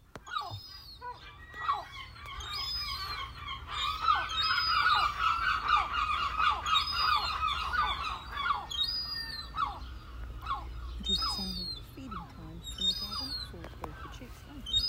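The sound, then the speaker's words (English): A baby gull approaches across garden decking with a stream of squeaky, high-pitched calls. The calls are repeated many times and stay fairly soft over a low hum. “This is the sound of one of the baby gulls coming towards me. There are two of them. Currently one is in my garden, approaching me on the decking right now,”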